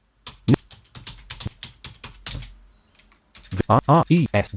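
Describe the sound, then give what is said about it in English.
Keystrokes on a computer keyboard as a search is entered: a long run of quick, uneven clicks, then a synthetic voice speaks after the typing stops. “So if I type in something like RNIB reading services, let's see what happens.”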